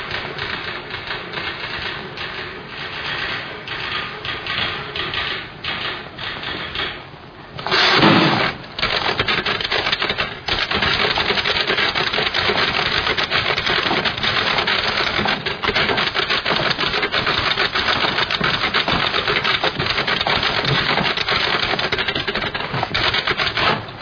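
A typewriter clatters as someone types a bad newspaper review. Dense, rapid keystrokes run almost without a break, with one short pause about a third of the way through before the loud, even typing resumes.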